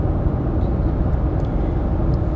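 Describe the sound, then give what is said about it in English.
Steady low road rumble of a car driving through the mountains, a continuous even drone with no distinct events and no talk. “I got in the car where I am now, driving through the mountains”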